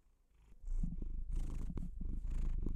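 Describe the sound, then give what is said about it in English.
A cat purring steadily: a low, rumbling purr with a pulsing rhythm that grows louder after the first half second and carries on alone, without talk. “I'm not sure if you can hear my cat purring in the background, but he's come to sit with me.”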